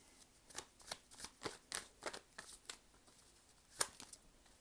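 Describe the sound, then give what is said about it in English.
Tarot cards being shuffled by hand: many soft, papery riffles and taps come at an uneven rhythm, quiet throughout with one slightly sharper snap near the end. “I cannot guarantee that you will hear me shuffling the whole duration of this reading”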